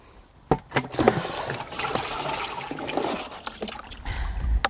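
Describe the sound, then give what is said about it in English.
Water runs onto the ground to soak it, a steady splashing trickle with a few sharper knocks near the start. “I'm just going to get some water from here.”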